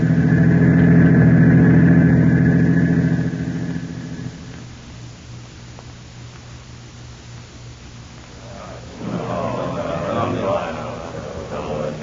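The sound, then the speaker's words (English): A car engine hums as the vehicle drives. It starts with a loud, steady low drone, then drops to a quieter rumble, and a voice comes in over it near the end. “We'll drive Larry down to the counter spy field office.”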